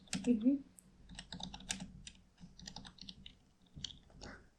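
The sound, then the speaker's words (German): Typing on a computer keyboard: quick, uneven runs of light key clicks and taps that keep going at a busy pace, with short pauses between bursts. “Ich kann nicht sehen, was du tippst.”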